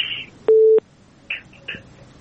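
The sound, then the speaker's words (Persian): Telephone busy tone after a caller's line was cut off: one steady, low electronic tone lasting about a third of a second, with faint short noises before and after it. “بله. تماسشان قطع شد.”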